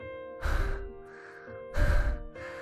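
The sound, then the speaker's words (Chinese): Heavy breathing from a man who has run all the way: two loud, breathy exhalations separated by a pause, over a sustained musical background. “池瑶听着他喘气， 你一路跑过来的？”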